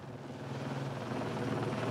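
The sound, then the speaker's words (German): A low-flying helicopter passes about 15 metres above the ground with signals hanging from its hook. Its rotor and engine make a loud, steady drone with a throbbing low hum that stays constant throughout, and no voices are heard. “Der Helikopter fliegt gerade mal 15 Meter eben über den Boden mit den Signalen am Haken.”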